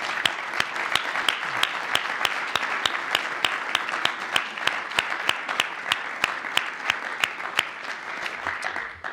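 An audience applauds to thank the sponsors of an annual lecture on American history, with dense, sustained clapping and a few sharper individual claps standing out across the whole stretch.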